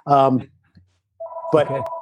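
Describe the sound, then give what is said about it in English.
A phone ringing, heard as a steady electronic ring tone that starts after a short pause. Voices talk before it begins and again over it. “That's my phone. Sorry.”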